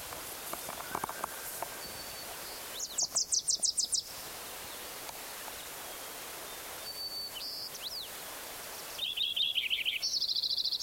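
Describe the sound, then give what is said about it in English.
Faint Wilson's warbler song: two quick, high, chattering trills, one early and one near the end, with a few brief thin chips in between over a soft, hissy background. “Wilson's warbler again.”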